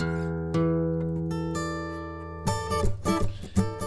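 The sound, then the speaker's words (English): Electric guitar recording with only its left channel copied across: a ringing note struck and re-struck early, slowly decaying, then a quick burst of strummed and picked notes near the end, moderately loud and alone. “So I'm going to take that guitar sound that we had, and I'm going to just copy and paste the left side of that recording, and it sounds like this.”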